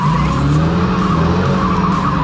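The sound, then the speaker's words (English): Tires skid and screech from a rigged stunt car being driven by remote from a roof, a loud, continuous rasping squeal over a steady engine drone that holds without a break. “That's the Fall Guys stunt driver, Logan Holiday, controlling our rigged out stunt car from the roof. Look at that move. Ah! On a dime.”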